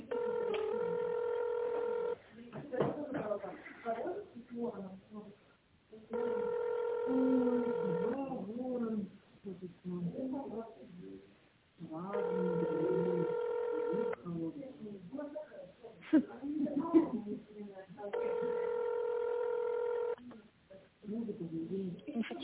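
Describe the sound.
Telephone keypad tones sound on a phone line after an automated menu prompt to press a key for accounting. Four long, steady electronic tones of about two seconds each repeat at regular intervals, with speech between them.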